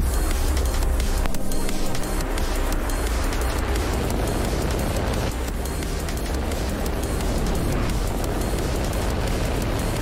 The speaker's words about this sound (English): Launch auto sequence 7, has started. 6, 5, 4, 3, 2, 1. Go for launch.